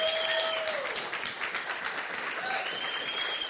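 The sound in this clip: Applause from a church audience welcoming a guest preacher to the stage at a Sunday morning service, a dense, steady wash of clapping that holds at an even level for the whole stretch.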